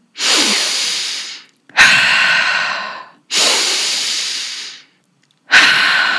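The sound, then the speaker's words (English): Forceful breathing, alternating sharp inhales through the nose and strong exhales out the mouth: four loud, breathy rushes, each about a second long, separated by short silent pauses. “the halo active breath, which is a forceful inhale through the nose and a forceful exhale out the mouth.”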